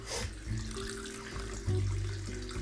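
Tap water runs steadily into a sink for washing the face, a constant rushing hiss over a low hum that continues through the whole moment without a break.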